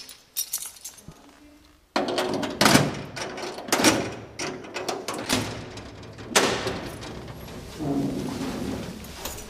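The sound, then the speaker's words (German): A heavy security door to a library's manuscript vault being opened, with several loud metallic clunks and rattling, scraping bursts that follow a sharp jolt, separated by brief lulls. “öffnet die Sicherheitstür.”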